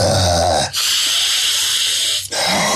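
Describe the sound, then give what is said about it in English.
A deep breath exhaled fast comes as a loud, forceful, steady rush of air, broken by two brief pauses. “I don't think you're supposed to exhale that fast, because I've apparently made myself slightly lightheaded.”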